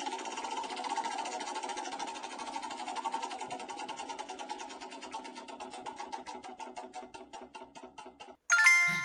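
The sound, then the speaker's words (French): A prize wheel spins with rapid, even ticking that gradually slows as the clicks spread further apart, and a louder, different burst of sound cuts in right at the end. “Je vais quand même te laisser tourner la roue pour le plaisir de tourner la roue.”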